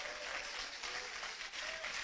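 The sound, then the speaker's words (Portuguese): Church audience clapping in praise during a service, a faint, steady wash of many hands that carries on evenly throughout. “Exalta o Senhor com palmas, bem alegre para Jesus. Palmas e glória a Deus.”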